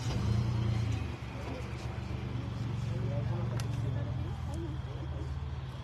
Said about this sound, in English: So they're moving the vehicles up just a little bit.